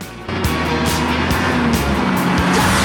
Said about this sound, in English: At the aerodrome, the Quattro's travelling in the centre of a wide tarmac road. Squad cars fanned out around it.